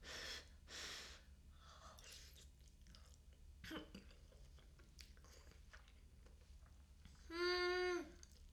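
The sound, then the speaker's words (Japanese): A person blows on a forkful of hot carbonara pasta to cool it. Two breathy bursts of air come at the start, followed by soft, faint mouth sounds and a short voiced hum near the end. “今回はカルボナーラにしました。ではいただくわよ。ちゃんと熱いからフーフーしなきゃね。”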